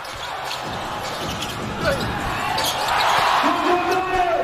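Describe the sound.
Basketball action in a Chinese professional game involving Zhejiang: a three-point shot hits the front of the rim, followed by a rebound and a second attempt. Ball thuds rise out of a steady, loud crowd roar that swells toward the end.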